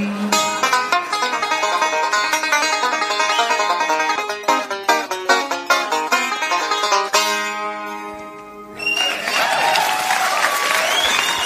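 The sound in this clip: A live comedy song plays as loud music with clear plucked notes, then gives way near the end to a broad wash of audience applause.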